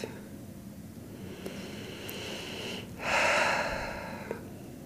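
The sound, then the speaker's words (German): A single deep breath during a guided breathing exercise, a soft, airy inhale that swells out of near silence and then fades, quiet overall with no speech. “Und jetzt atme noch mal ganz tief”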